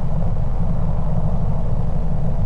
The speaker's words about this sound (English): I find myself driving into work about 6:30.